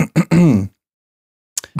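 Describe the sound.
A person clears their throat with a couple of short gruff bursts and a voiced, rumbling ahem. After a brief silence, a few more short throaty sounds follow.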